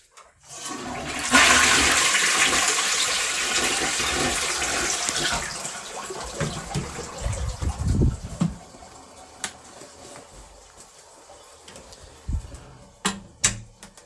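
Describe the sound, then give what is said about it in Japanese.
A toilet flushes with a loud, rushing surge of water that holds steady for several seconds. It then fades into gurgling and trickling as the tank refills. “ズボンとパンツ上げて、ちょっと流しますね。うるさいかもしれないんですけど。”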